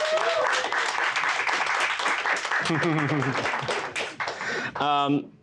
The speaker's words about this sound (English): Please give Ian a warm welcome.